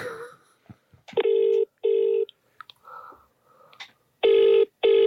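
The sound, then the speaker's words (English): Outgoing telephone call ringing: two pairs of buzzing ring tones, each pair two short bursts close together, with a gap between pairs and a few faint clicks and noises before the first ring. “Call Gav or Jerry there and ask them if they remember you collecting caterpillars.”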